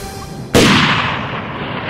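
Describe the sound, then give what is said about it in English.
A single sharp gunshot from a Steyr rifle firing a .308 bullet cracks out loud and sudden, then leaves a long, slowly fading rumbling tail. “Ryan yanked the butt to his shoulder and pulled off a snapshot.”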